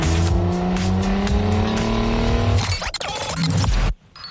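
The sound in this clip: A car drives off with tires squealing: the loud engine climbs steadily in pitch as it accelerates, followed by a burst of rougher noise before the sound cuts off abruptly.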